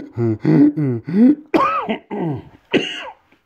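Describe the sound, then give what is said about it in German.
A person coughs and clears their throat in a run of several short, raspy, voiced bursts with brief gaps between them. “Jetzt kriege ich Husten.”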